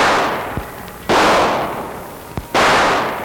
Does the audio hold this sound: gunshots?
yes